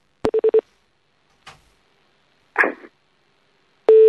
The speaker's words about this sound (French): Elle a raccroché. Allez, on rappelle une dernière fois.